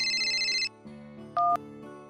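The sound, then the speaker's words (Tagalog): Mobile phone ringing with an incoming call: an electronic ringtone plays a short melody of several bright, beeping notes, fairly faint and with no voices. “Tumatawag po si Larry. Sasagutin ko lang. O siya sige, sagutin mo na muna yan.”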